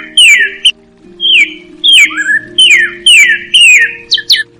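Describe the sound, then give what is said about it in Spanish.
Cardinal songbird singing, a red crested male, in a string of about six loud whistled phrases, each sliding downward, separated by short gaps over a faint low steady background. “El pájaro cardenal es un pájaro cantor que habita en la Guajira. Tiene copete, el macho es de color rojo y la hembra de color arena con rojo. Escuchémoslo.”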